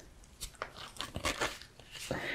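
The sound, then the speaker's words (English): Playing cards shuffled by hand by an inexperienced shuffler, heard as many short, crisp papery riffling bursts that merge into a steadier rush toward the end. “so I'm just gonna mix the cards”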